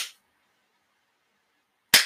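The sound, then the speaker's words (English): A voice imitates a gunshot fired with subsonic bullets: after a brief fading noise and near-silence comes one short, sharp, breathy puff, fairly loud and abrupt. “And I have subsonic bullets. So if I shot, it would just sound like this.”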